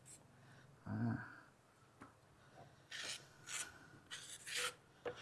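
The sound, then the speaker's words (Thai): A steel ruler scrapes across wet, partly set cement in a mold to level the workpiece flush with the mold's surface. There are several short, rough rasping strokes of moderate loudness, with quiet gaps between them. “ครูจะใช้ไม้บรรทัดนะครับไม้บรรทัดนะครับเป็นฟุตเหล็กนะครับปาดนะครับปาดให้ตัวชิ้นงานนะครับมีความเรียบนะครับ”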